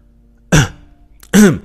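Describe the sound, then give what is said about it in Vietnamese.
A man clears his throat twice to get a group's attention: two short, loud, rasping bursts about a second apart, with quiet in between and no talk. “hắng giọng một cái, thu hút sự chú ý của công chúng lại đây rồi lớn tiếng nói”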